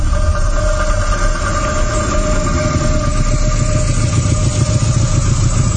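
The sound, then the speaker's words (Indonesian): A motorcycle engine runs as the rider arrives home and parks, giving a loud, constant low rumble with a fast, even throb that holds steady throughout. “Sampai di rumah, aku parkirkan motor.”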